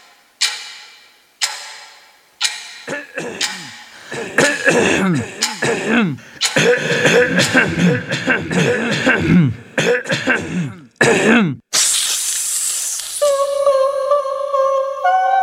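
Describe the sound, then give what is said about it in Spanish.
Cuckoo clock warning mechanism engaging ahead of striking the hour: a few sharp isolated clicks, then a long stretch of rasping, sweeping mechanical whirring, one loud burst, and steady ringing tones to close. “El dispositivo del reloj de Cuco que se activa 10 minutos antes de marcar la hora es como un aclararse la garganta antes de tomar la palabra.”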